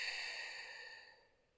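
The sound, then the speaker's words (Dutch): A long breathy exhale after a deep, held breath, a soft airy hiss that gradually fades away over under two seconds. “Hou je adem even vast en adem uit.”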